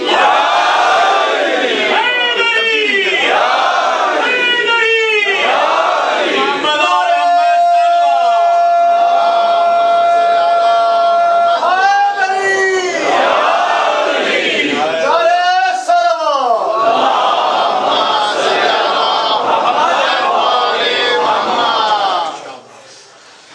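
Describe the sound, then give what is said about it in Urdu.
A large crowd loudly chants the Naara-e-Haidari slogan: repeated swelling rounds of shouted cries and answering calls, sustained for a long stretch before ending abruptly. “تو آئیے نئے عزم و جذبہ و ولولہ و عہد کے ساتھ لگا دیجئے ایک ایسا نعرہ جس میں قرآن کی تلاوت کا عزم موجود ہو، لگائیے نعرہ حیدری”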